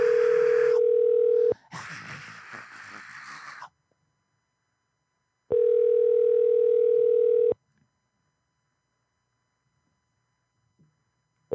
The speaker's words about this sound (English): Nobody wants to pick up the damn phone tonight.